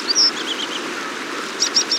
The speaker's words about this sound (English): Dippers, also called water ouzels, are small gray birds that make ball-shaped nests behind the falls and fly through the falls to feed their young.